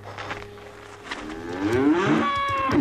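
A sick calf that has just struggled to her feet moos: one drawn-out, strained call that swells in loudness and rises in pitch toward the end, with no voices.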